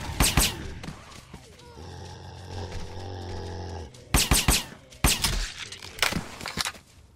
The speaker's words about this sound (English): SE, east, SE. East. Shoot the zombie. East.